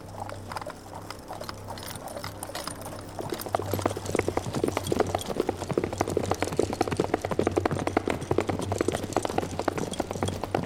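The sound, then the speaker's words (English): Hooves of a horse-drawn carriage clip-clop through wild countryside in a rapid, steady clatter of many hoof strikes over a constant low hum, growing louder after the first few seconds. “All day driving in the carriage. The country gets wilder as we go.”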